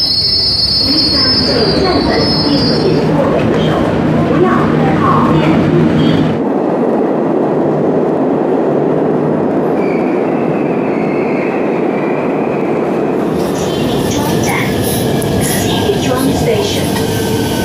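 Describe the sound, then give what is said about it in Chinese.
A subway train squeals as it arrives at a station. High metallic wheel screech rides over a loud, continuous rolling rumble that drops away midway, and sharp tonal squealing returns near the end. “列车将进站”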